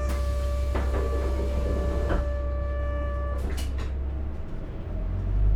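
A Japanese route bus pulling away from a stop: a steady low engine rumble with faint tonal whines and a few light knocks and clatters, the rumble swelling near the end.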